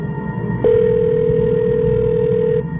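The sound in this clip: A telephone tone on a call that cannot be connected sounds as a single steady, unbroken beep lasting about two seconds. It starts abruptly over a low background hum and stops just as abruptly.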